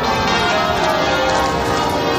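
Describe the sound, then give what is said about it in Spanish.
Church bells peal from St Paul's Cathedral in London for a thanksgiving service marking a queen's 70-year reign, forming a dense, loud, continuous wash of overlapping ringing tones. “sonaban hace unas horas las campanas de la Catedral Londinense de San Paul, donde ha tenido lugar la celebración litúrgica de Acción de Gracias”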